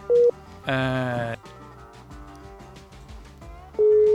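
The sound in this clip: Busy tone after a dropped phone call: a short, steady mid-pitched beep, then a stretch of other layered harmonic tones, then the same beep returning loudly at the end.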